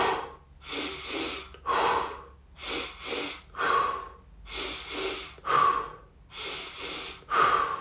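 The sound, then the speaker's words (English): Controlled breathing in a relaxation exercise, with a rhythm of two quick inhales followed by one exhale. The airy bursts repeat in several even cycles with brief pauses between, and no talk is heard. “We're going to inhale twice, exhale once.”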